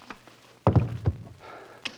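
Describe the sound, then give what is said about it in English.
A blow knocking a man out: a cluster of heavy, dull thuds in quick succession, followed by quieter rustling and one soft tap near the end. “You knocked him out.”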